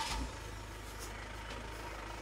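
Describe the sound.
A large 10-metre motorhome driving off, heard as a deep steady engine rumble with faint higher hiss, fairly quiet throughout.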